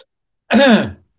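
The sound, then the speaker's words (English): A single short, loud cough, more like a throat-clearing, heard alone and lasting about half a second. “Awkward cough.”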